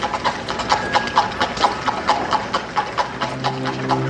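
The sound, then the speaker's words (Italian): Hooves clip-clop steadily as a horse-drawn carriage pulls away from the curb. Many sharp hoof strikes fall in an even rhythm throughout. “Rapidamente, senza aggiungere altro, salì sulla sua carrozza, parcheggiata accanto al marciapiede, e se ne andò.”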